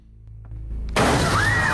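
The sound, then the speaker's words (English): A glass cabinet crashes down and shatters: a low rumble builds, then a sudden loud burst of breaking glass that keeps crackling and crashing to the end. “She kicks the killer into a glass cabinet that crashes down on top of him”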